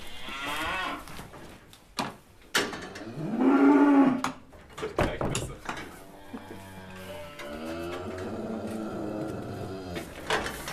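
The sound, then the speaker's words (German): Hungry Allgäu oxen, fattened steer calves, moo in a barn stall with hay in sight but out of reach. Several drawn-out moos include one loud bellow mid-clip and long low moos later, with scattered knocks in between. “Das Heu liegt jetzt zwar unten im Stall. Die Rinder sehen es vor sich. Es ist aber noch nicht in Reichweite der Tiere. Die sind schon richtig hungrig.”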